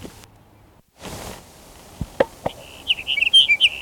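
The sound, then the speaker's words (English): Sage sparrow song: a short burst of high, tinkling, twittering notes near the end, preceded by a few sharp clicks and an earlier soft hiss of noise. “Here's Sage Sparrow number 6.”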